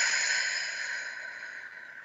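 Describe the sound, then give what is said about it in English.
A slow, guided breath out through the mouth as if through a straw: a soft, steady airy hiss that fades gradually over about two seconds, with no voice over it. “let's take a breath in through our nose, out through our mouth,”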